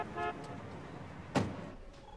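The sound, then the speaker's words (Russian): Cars moving along a street as a taxi pulls up outside a hospital: steady road rumble with a short horn toot near the start and a brief loud whoosh partway through. “На улице ездят машины. Такси подъехало к больнице.”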